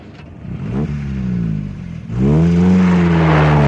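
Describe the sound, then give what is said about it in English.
A car drives and accelerates, its engine revving with a mid-pitched whirring hum that climbs and grows louder in the second half. “Letting you take a back seat while I show you how to really drive. Fei Fei, watch out for the roundabout.”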